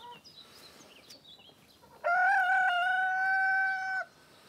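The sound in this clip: A brooding hen, disturbed on her nest of eggs, lets out a single loud, drawn-out harmonic squawk lasting about two seconds, after a stretch of faint background noise.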